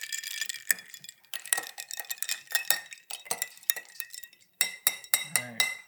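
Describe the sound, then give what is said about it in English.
A spoon stirs a margarita mixed with tequila and no-pulp orange juice, clinking against the glass in many quick, irregular taps and scrapes, fairly faint throughout. “And here we have Tropicana, no pulp, calcium and vitamin D, because when you're drinking margaritas, you want some calcium and some vitamins. Stir it up again.”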